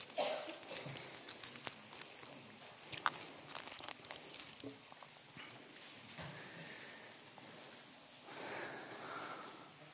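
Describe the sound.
Faint rustling and crinkling of Bible pages being turned, with many soft, irregular paper crackles and small ticks continuing throughout.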